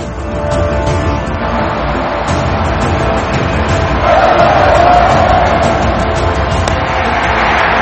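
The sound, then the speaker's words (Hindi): Cricket crowd roaring and cheering after a boundary: a dense, continuous wash of many voices that stays loud throughout and swells a little toward the middle. “एक और boundary, लोग तालियां बजा रहे हैं।”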